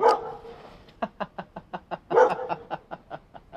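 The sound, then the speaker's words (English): A dog that lives nearby barks over and over in a fast, steady run of sharp barks, many in a row after a brief whiny opening, with no talk over them. “Sorry, that's the dog that lives nearby.”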